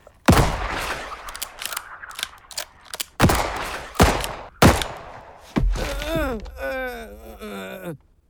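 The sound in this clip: Gunshots fired into a man's hands and both kneecaps: a few loud, sharp bangs spaced apart with thuds in between, followed by long, wavering vocal cries of pain.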